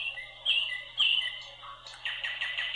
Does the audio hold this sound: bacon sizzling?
no